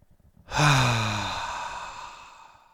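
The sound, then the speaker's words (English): A big, deep breath released as a single long sigh: it starts with a voiced tone that drops in pitch, then trails into a breathy exhale that gradually fades. “So let's begin with a big, deep breath.”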